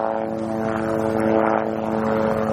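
A loud, steady propeller aircraft drone fills the whole stretch with a constant buzzing hum and several sustained tonal lines. The level never changes, and no voices are heard.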